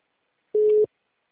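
A telephone line tone sounds while a call is being placed: a single steady beep about a third of a second long, heard alone.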